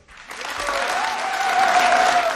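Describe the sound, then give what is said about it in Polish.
Applause from a concert audience breaks out suddenly after a brief silence and continues as a dense, steady clatter of many hands clapping, growing slightly louder toward the end. “Zofię Sylwin, której należą się wielkie brawa”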